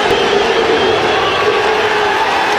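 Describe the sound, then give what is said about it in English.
Baseball crowd cheering loudly in a stadium during an on-field fight, a dense, continuous roar of many voices that stays at a constant, heavy level throughout. “You hear that cheer? That's when Nolan Ryan appeared from the mass of humanity and started just buttoning up his shirt.”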